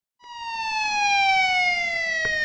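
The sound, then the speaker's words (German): A police car siren sounds as the car races onto a scrapyard: one loud, sustained wailing tone whose pitch glides slowly downward, starting abruptly and holding steady to the end. “Plötzlich kommt schon wieder ein Polizeiwagen auf den Schrottplatz gerast.”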